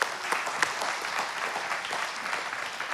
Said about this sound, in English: Put your hands together for our treasurer, Chris Walkup.